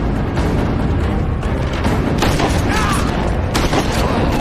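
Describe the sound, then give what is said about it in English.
Gunfire in a film action scene, where a driver shoots at a SWAT team in a boathouse: heavy booming shots merge into a loud, dense, continuous barrage. “Driver shoots. SWAT team takes cover”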